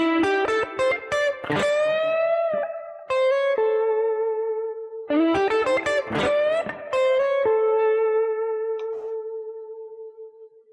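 Electric guitar playing a blues lick, a run of quick picked notes settling onto a long, sustained, singing note. The phrase then repeats, and its final note rings on and slowly fades out.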